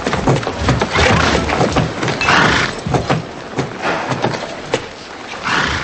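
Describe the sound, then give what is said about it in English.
Horse hooves knock irregularly on a church floor as a rider enters on horseback, with scattered sharp clops over a swelling, rumbling background. “Anne frowns as Tavington rides his horse inside.”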